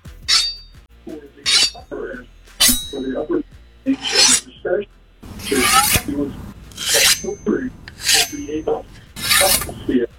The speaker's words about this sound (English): It sounds like sharpening a knife. That's exactly that's what it is.